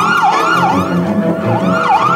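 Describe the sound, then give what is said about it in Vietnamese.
A loud ambulance siren wails, its tone sweeping rapidly up and down in a steady repeating cycle, heard alone without voices. “một hồi còi hú lên thê thảm của xe cấp cứu làm anh bừng tỉnh.”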